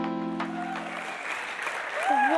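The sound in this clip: An audience applauds a guest reverend at a church service: sustained clapping over a held keyboard chord that fades early on, with a voice starting to speak near the end.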